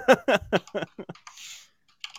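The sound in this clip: Clicking and typing on a computer: many quick, crisp taps and clicks in an uneven rhythm, with a short pause before a final cluster of clicks.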